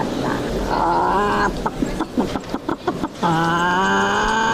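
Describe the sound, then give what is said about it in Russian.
Mechanical crowing from a wind-up toy rooster on a stand selling joke horoscopes: two long, buzzy, harmonic crows separated by a stretch of choppy clattering. “Иллюстрация к словам Алены Солнцевой – заводной петух на стенде, где торгуют веселыми гороскопами.”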